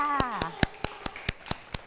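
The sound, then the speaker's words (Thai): Children clapping their hands: a brief voice opens, then about eight sharp, evenly spaced claps follow in a quick, steady rhythm. “เก่งมากค่ะเด็กๆปรบมือให้ตัวเองด้วยค่ะ”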